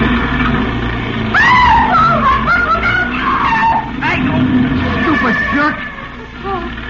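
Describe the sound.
Tires screech as a car skids in a near miss with a pedestrian stepping off the curb at a street corner, a long wavering squeal over engine rumble that tapers off toward the end.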